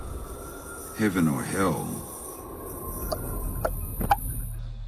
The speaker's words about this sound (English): Actually, that keening wheel of the train is very much a signature of the film itself,